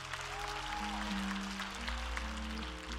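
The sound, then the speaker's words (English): Congregation applauding a church co-pastor during a Sunday service: dense, steady clapping that fills the whole stretch over sustained musical tones. “Come on, let's give him a hand.”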